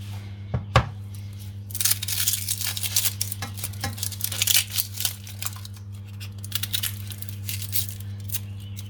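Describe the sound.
Knife chopping onions on a cutting board: many irregular taps and scrapes in a busy, uneven rhythm, with one sharp knock near the start and a steady low hum underneath throughout.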